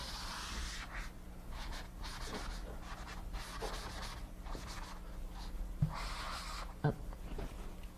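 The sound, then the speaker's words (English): Rubbing strokes of an eraser wiping writing off a board during a programming lecture, a steady run of many scratchy, breathy swipes at an even level, with a couple of sharper knocks near the end. “let me erase some of this. We'll clear it out and start again.”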